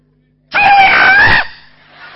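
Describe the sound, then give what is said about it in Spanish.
A loud, raw shout meant to scare the devil, one sustained scream-like cry of about a second that cuts off abruptly, followed by faint lingering noise. “Entonces al diablo se lo asusta con un grito de esos.”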